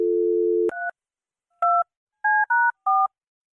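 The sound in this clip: A telephone number is dialed: a steady low dial tone gives way to five short, evenly pitched touch-tone beeps in quick succession, each a brief two-note chirp with gaps between them.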